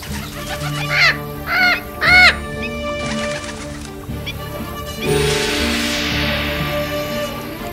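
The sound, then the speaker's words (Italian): A strange bird calls three times in quick succession with harsh, cawing cries like a crow's. The calls ride over a sustained musical bed. “Ma cos'era? Non ho mai sentito di un uccello comportarsi così. Mai!”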